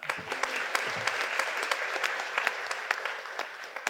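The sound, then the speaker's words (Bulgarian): Audience applause at a comedy roast, greeting the next performer. Dense, continuous clapping with crisp individual hand claps standing out, holding a steady level throughout. “Аплодисменти за мен.”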